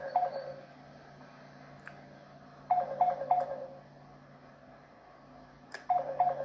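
A phone ringing with an incoming call, its ringtone sounding in three short clusters of beeping tones separated by pauses, fairly faint over a low steady hum.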